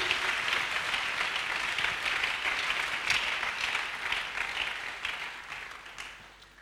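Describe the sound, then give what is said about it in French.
An audience applauding at a church service, dense, sustained clapping at an even level that gradually fades toward the end. “On acclame très bien le Seigneur.”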